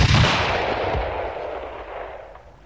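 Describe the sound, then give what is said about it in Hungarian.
A rifle shot fired at starlings: one loud, sharp blast at the very start that rolls away in a long, fading rumble over the next couple of seconds. “Lassan már fel sem rebbennek, ha rájuk lövök, pedig akkorát szól ez a puska, mint egy ágyú.”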